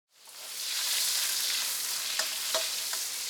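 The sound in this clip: Beaten eggs hit hot oil and are stir-fried with a spatula, giving a loud, steady sizzling hiss that rises quickly and holds, broken by a couple of brief spatula scrapes.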